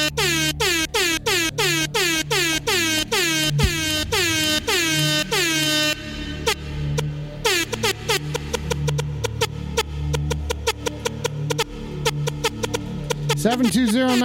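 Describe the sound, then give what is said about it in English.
An air horn blares in a rapid string of many short, loud, identical blasts over a low steady hum, followed by a looser run of further honking bursts. “That air horn went out to Lil Beefy.”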